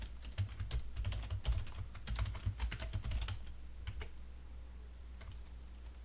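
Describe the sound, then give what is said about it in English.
Typing on a computer keyboard gives many quick, irregular key clicks, denser for the first four seconds and then sparser and fainter, over a low steady hum. “Make sure we type that correctly.”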